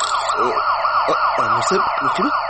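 A police car siren wails loudly and continuously, sweeping rapidly up and down in pitch in a repeating cycle.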